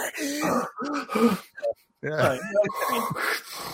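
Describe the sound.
A voice imitates the breathy gasp from the GoldenEye video game when a character is shot, giving a few sharp, strained intakes and exhales mixed with voiced groaning sounds, loud and close.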